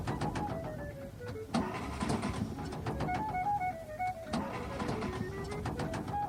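A Studebaker car engine sputters and falters toward a stall, producing a dense, uneven mechanical rumble with steady whining tones running throughout. No voices are heard.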